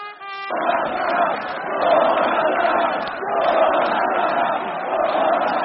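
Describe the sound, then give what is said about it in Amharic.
A crowd of many thousands responds to a president's speech in Poland with a loud roar of cheering and shouting voices that swells, dips and swells again. “በብዙ ሺዎች የሚቆጠረው አድማጭ ህዝብም የፕሬዝዳንቱን ንግግር ሞቅ ባለ ጭብጨባ ተቀበለ።”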